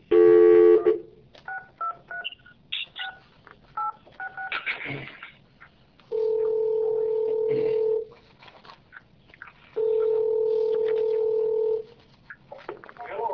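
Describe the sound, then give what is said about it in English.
Telephone dialing tones from a call to a fire district: a rapid run of short keypad beeps, then two long, even ringback tones separated by a pause, with talk and faint noises in between. “I hope I dialed the right number.”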